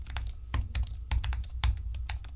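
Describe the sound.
Colleagues typing on laptop keyboards in the background: a steady run of many quick, sharp key clicks with uneven rhythm and a few louder strokes, no voices.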